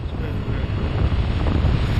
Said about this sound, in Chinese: 雪原上起风了，天地的界限开始模糊